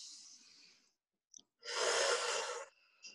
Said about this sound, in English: Take a deep breath in.